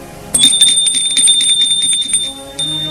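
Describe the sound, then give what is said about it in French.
Doorbell ringing as a high, bright electronic tone that starts suddenly and holds steady for about two seconds before cutting off, over faint background noise. “Charles avec Gilles sonne chez Quentin”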